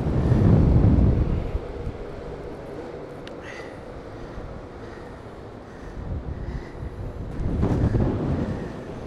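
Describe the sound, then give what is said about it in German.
Strong wind buffets the microphone outdoors on a spiral staircase beside a ferry, a loud, low roaring rumble that swells at the start, eases to a steadier rush, then surges again near the end. “Ja, es ist eine ganze Menge Wind, wie ihr das alle merkt. Hier geht's richtig ab.”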